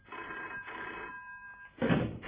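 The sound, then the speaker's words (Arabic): A telephone bell rings in a doctor's clinic at night. The bright metallic trill repeats in bursts, and the last bursts come out louder, with no voices over it. “وفي ليلة كنت في عيادتي بكشف على مريض، ودق جرس التليفون.”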